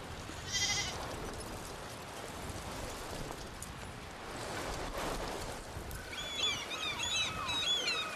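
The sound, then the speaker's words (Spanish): Sheep or goats bleat as a herd is gathered. A few faint bleats rise over a constant noisy background, one early and a cluster near the end. “Ahora recoged el rebaño.”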